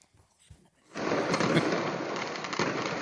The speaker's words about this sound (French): C'est à la tombée de la nuit que le commissariat de la Courneuve a été ciblé par les premiers tirs de mortiers d'artifice.